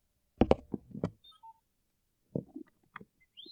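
A toy helmet with lights and sound gives off electronic robot droid beeps and chirps. A few short, faint bursts are followed by bright tonal blips and a quick rising chirp at the end, with no voices.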